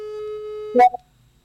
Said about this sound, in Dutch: dit is het geluid van een overgaande telefoon.